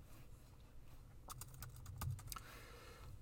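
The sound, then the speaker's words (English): Typing on a computer keyboard while entering a search on a card-trading site: a quick, uneven burst of several sharp key clicks over a low steady hum, with no talk. “let's type in Devontae Graham.”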